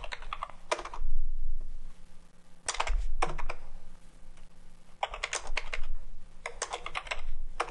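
Fingers type code on a computer keyboard in Visual Studio, with rapid bursts of clicking keystrokes separated by short pauses and a few duller thumps, no speech.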